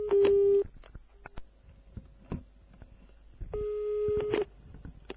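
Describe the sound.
A telephone line tone plays while a shop is being called. Two long, steady mid-pitched beeps are separated by a pause of about three seconds, with faint scattered clicks and knocks in between.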